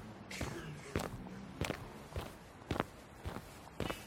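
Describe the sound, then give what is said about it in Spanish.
Footsteps of a person walking along city streets toward a park: a steady, evenly spaced series of soft steps over constant background hiss. “Sigo caminando.”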